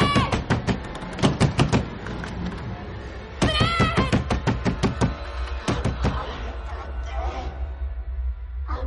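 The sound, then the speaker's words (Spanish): A door shuts in a supernatural horror film, followed by a series of sharp knocks, thuds and rattles as someone tries in vain to open it, the bursts separated by a brief pause. “La puerta se cierra. Rebeca intenta abrirla en vano.”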